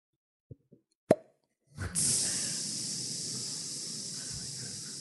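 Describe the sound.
A voice imitates a snake biting a bike tire: a few small clicks and a sharp pop, then a long hissing rush of escaping air that slowly fades.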